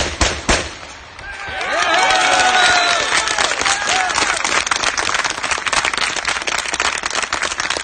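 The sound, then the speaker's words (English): Street crowd applause after a volley of shots fired in honour of a dead INLA member: a few sharp bangs open, then dense, sustained clapping swells quickly and carries loudly through to the end. “So obviously from the applause, support in the street for the firing of those shots, in honour of Martin Michael Kearney”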